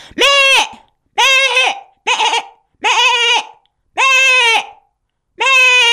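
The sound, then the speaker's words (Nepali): A human voice imitates a goat bleating, giving six wavering, nasal bleats of similar high pitch, each about half a second long, separated by short pauses and with no other sound. “यो बाख्राको भयो होइन?”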